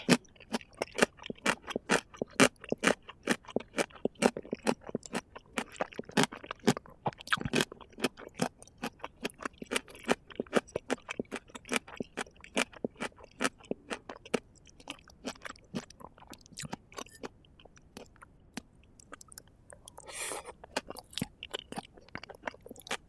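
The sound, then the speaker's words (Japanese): Someone chews Japanese tsukemono pickles in many quick, crisp crunches. The bites come in a steady rhythm, quiet and close, with no talking. “お心遣いありがたい。お漬物もありがたい。おいしい。”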